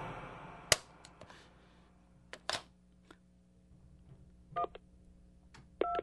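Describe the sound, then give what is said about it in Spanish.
Telephone number being dialed: a few sharp clicks, then two short, clear dual-tone keypad beeps near the end. No one speaks. “Yo marqué el número telefónico de cada primo, cada amigo en quien podía pensar,”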